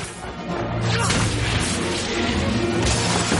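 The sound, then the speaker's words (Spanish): Crashing blasts and magic spell impacts from a fantasy film battle as attackers storm a castle through its windows: dense, loud, continuous noise with a sharp surge about a second in. “Uno de ellos entra por una ventana, dispara a un hombre y Arthur Weasley le lanza un rayo.”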